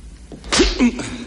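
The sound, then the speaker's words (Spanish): A slap to the face lands during a fight in a 1990 action film, a single sharp, loud smack that is brief and cuts through surrounding low noise. “Le da una bofetada.”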